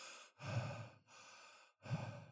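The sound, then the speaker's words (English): Connected circular breathing with no pause between inhale and exhale: loud, airy breaths in alternating stronger and softer phases that run almost straight into one another, a few cycles with no voices. “using something called connected breathing or circular breathing, where there's no pause between the inhale and the exhale. Just, I know it will sound weird in the mic.”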